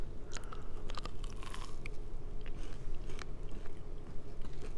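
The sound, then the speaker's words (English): Crunching bites and chewing into a white chocolate dipped Rice Krispie treat topped with rainbow nonpareils: a few sharp, crisp crackles over steady soft chewing, with no talk. “So this is a white chocolate dipped Rice Krispie treat, both of our favorites.”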